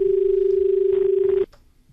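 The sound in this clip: A telephone line tone sounds as an incoming call connects: a steady, mid-pitched electronic tone with a fast, regular pulse that stops abruptly partway through, leaving faint noise.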